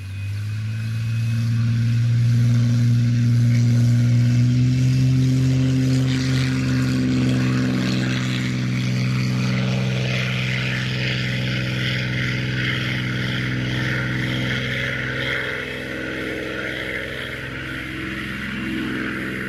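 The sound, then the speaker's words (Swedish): A Supermarine Spitfire Mark 9 engine runs through its start-up sequence. The loud, deep piston drone has strong low harmonics, holds steady for most of the time and eases slightly near the end. “Följer nu en startsekvens med en Spitfire Mark 9.”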